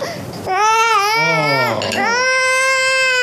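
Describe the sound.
A baby crying in loud, wavering wails with rising and falling pitch, three long cries in a row separated by brief catches of breath.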